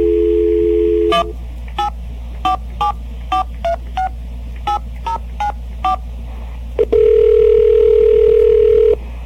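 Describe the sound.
Telephone keypad tones dial a destination number: a steady dial tone gives way to a quick run of many short, evenly paced beeps. A loud steady tone then holds until the end.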